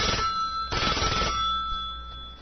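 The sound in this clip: An outgoing phone call rings with a steady electronic tone that carries a bright, buzzy overtone and holds for the whole stretch, briefly growing louder partway through.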